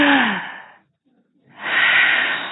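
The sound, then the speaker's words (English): A group of people at a recovery marathon event takes a big, deep cleansing breath together: a long breathy rush of air, a brief silence, then a second long, loud breathy rush. “everybody take a big, deep, cleansing breath”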